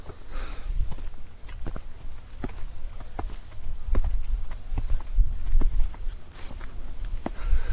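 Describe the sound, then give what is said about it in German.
Footsteps walking up the slope of a grassy dike outdoors, with many crisp, fairly regular steps over a low, steady rumble. No voices are heard. “Oh, wir laufen jetzt auf den Deich hoch.”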